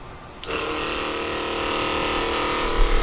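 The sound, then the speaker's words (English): Electric pump transferring about 15 gallons of used golden-brown vegetable oil grease into three 5-gallon containers, starting abruptly and then running as a continuous, even whirring drone with a steady tonal hum. “That's the sound of a pump moving 15 gallons of golden brown grease into 3 of my 5-gallon containers.”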